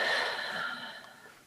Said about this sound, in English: and releasing another deep breath in and releasing.